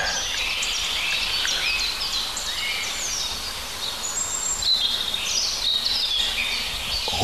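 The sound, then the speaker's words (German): A European robin sings in a continuous stream of high, thin chirps, trills and warbles that overlap steadily throughout, with no voices. “Schöne Rotkehlchen.”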